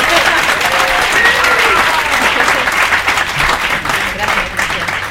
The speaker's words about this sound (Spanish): dale un aplauso, por favor, que está muy nerviosa.